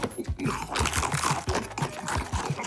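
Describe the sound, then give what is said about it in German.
A crunchy cookie being bitten and chewed: a dense run of crisp, crackling crunches in a steady chewing rhythm, broken by a couple of brief pauses. “Lecker, einfach, köstlich, dieser Keks ist weg. Ich hab ihn gegessen.”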